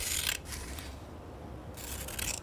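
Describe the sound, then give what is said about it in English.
Scissors cutting an article out of a newspaper, heard as two short, faint bursts of crisp, rasping snips separated by a quiet pause. “Take a pair of scissors. Choose an article. Cut out the article.”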